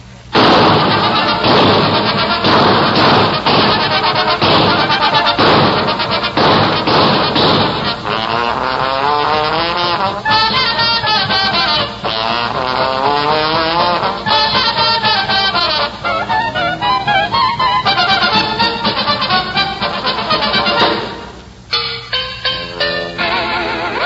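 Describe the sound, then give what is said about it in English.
Sound effects for a comic Indianapolis automobile race: a loud, dense, continuous roar of engines with whining tones that rise and fall, ending in a few choppy bursts. “Oh, that's the one in which you described the Indianapolis automobile race.”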